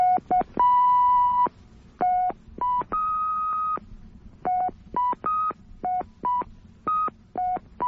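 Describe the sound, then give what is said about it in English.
Touchtone phone keypad tones play a quick tune made from many steady electronic beeps of differing pitch, mostly short with a few held longer, sounding alone with no voices. “I got a touchtone phone here. Uh-huh. And if you push more than one button down at the same time, you get a sound like this.”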